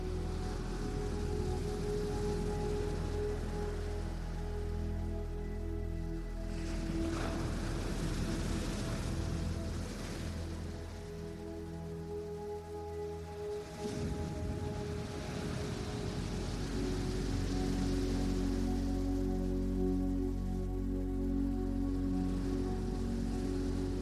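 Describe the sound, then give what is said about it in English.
Ocean waves wash onto a beach in a continuous soft hiss, with a couple of gentle surges as the water rolls in. “As each wave continues to wash onto the beach,”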